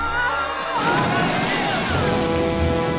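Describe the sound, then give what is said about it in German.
A huge surge of water gushes out of a passage into a gold-filled treasure chamber, breaking in as a sudden loud, rushing roar that stays full and sustained over faint lingering tones. “Da strömte auch schon mit einem riesigen Schwall das Wasser aus dem Gang in die Kammer.”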